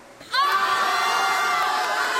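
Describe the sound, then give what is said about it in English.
A live, rowdy show audience bursts into cheering and shouting with sudden force, then keeps up a loud, sustained roar of whoops and raised voices. “Another overreaction from our audience because I suck at prompting them.”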